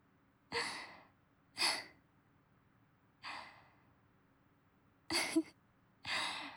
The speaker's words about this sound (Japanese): 大あくび。